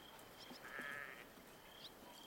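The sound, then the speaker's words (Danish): Faint sheep bleating as a flock is driven to a grassy clearing in the early morning. One drawn-out bleat stands out near the middle over a steady, soft background hiss. “Hun driver sin får mod en lysning, hvor de plejer at græsse dagens første måltid i fred.”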